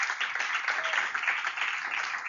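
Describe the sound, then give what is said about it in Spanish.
A church audience applauds in praise during a sermon, a steady, muffled wash of clapping that stays even in level for the whole stretch. “Oh, gloria a Dios, dale un aplauso a Dios.”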